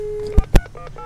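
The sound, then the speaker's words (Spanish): Telephone keypad tones as a number is dialed to a prefecture headquarters in Puerto Madero. Two sharp clicks are followed by a few brief, clear beeps. “Ahora ahí estamos marcando.”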